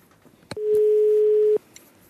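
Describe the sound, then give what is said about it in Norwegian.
A telephone rings out as a call is placed: a couple of soft clicks, then one steady, mid-pitched tone lasting about a second before it cuts off. “For å radiodokumentere Bokbåten må jeg rett og slett ringe mamma.”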